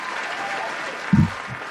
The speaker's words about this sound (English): There's the applause. Congratulations, going crazy.